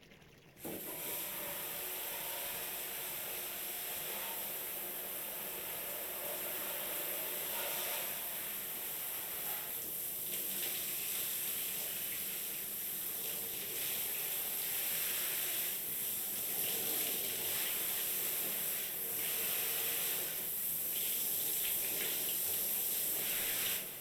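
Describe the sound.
Water rinses hair at a salon as a steady, soft spraying hiss runs evenly throughout, with no talking.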